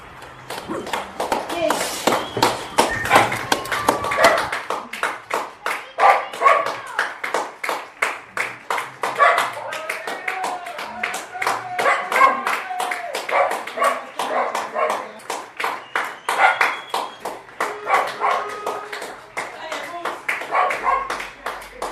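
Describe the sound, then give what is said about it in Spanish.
Neighbourhood applause recorded from a window: many residents clapping together in a sustained, dense stream of sharp claps that keeps a steady, lively rhythm for the whole stretch, swelling and easing slightly in loudness. “esto lo grababa ayer desde mi ventana. Bueno, pues aquí en mi barrio, aunque todavía no es la hora, falta un minuto. Ya muchos han empezado a aplaudir.”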